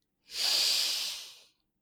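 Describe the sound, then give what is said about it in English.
A single big, deep breath drawn in, an airy hiss that swells quickly and then slowly tapers off over about a second, heard alone. “And take another big, deep breath.”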